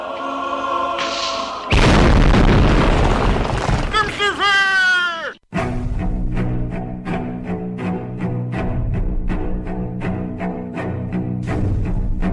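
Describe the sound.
A comedic holy hand grenade explosion bursts out as a loud, roaring blast lasting about two seconds. Warbling, bleat-like cries follow, then an abrupt cutoff, after which a rhythmic tapping pattern continues under voices.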